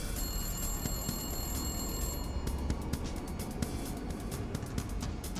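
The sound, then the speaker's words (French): A public payphone rings at a gas station at midnight: a steady, bright electronic ring lasts about two seconds, then stops, leaving constant background noise with faint clicks. “deux tireurs d'élite de la police d'État qui surveillaient la station-service entendirent le téléphone public sonner.”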